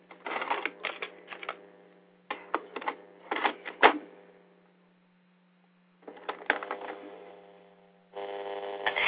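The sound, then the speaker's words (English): Mechanical clicks, clunks and rattles of a cassette tape being turned over in a recorder, coming in several short bursts with quiet gaps, over a steady low mains hum. “Hey, hold on one second. I have to just turn the tape.”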